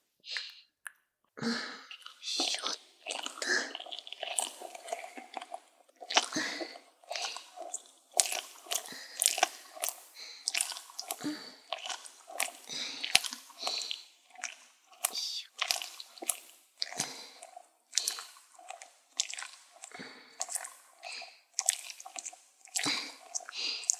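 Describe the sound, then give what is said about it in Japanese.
Oiled hands massage a face, making soft wet squishes and slick squelches in many gentle, irregular strokes at a low, even level. “オイルをつけた手でお顔触りますね”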